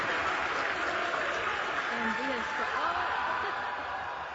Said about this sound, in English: mission control burst into cheers. The unmanned spacecraft then deployed more than 24 Starlink satellites before returning to Earth hours earlier than planned. Starship has landed.